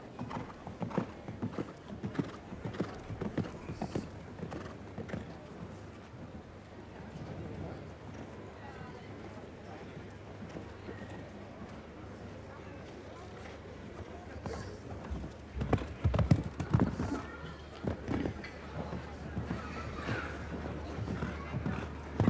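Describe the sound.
Hooves of a show-jumping horse clip-clop at a canter around a course between an oxer and a vertical, with many quick thuds that grow louder in a brief flurry late on. A voice talks over the hoofbeats throughout.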